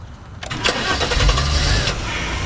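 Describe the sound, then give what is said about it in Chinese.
A car engine starts at the ignition during a driving lesson: a short whirring crank, then the engine catches and settles into a steady, fairly loud idle, with no talk. “握住方向盘，踩刹车， 刹车 左边，对，打火，”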